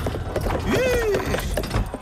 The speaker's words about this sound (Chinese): 此时一位有钱人驾着马车来到回春药房。